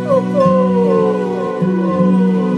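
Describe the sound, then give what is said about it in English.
A pack of animals howls together as it runs through forest, several long drawn-out howls overlapping and sliding downward in pitch, loud and continuous throughout with no voices. “They run, and as they run, they howl.”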